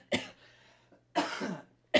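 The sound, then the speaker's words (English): A smoker's coughing fit: three harsh, loud bursts of coughing separated by short quiet gaps, the middle one longest and rattling, the last cut off at the end. “coughing up a lung”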